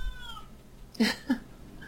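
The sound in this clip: A cat meows twice in quick succession, two short, loud, abrupt cries about a third of a second apart, standing out clearly over a quiet, low background hum.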